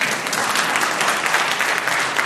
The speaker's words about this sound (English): Oh, you're allowed to applaud.